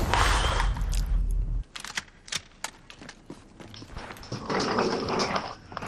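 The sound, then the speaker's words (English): A small dog growling and scuffling, beginning with a loud, rough burst, followed by scattered sharp clicks and short noises of varying strength. “If anybody wants a small dog, don't. Don't do it. Don't put that evil on somebody.”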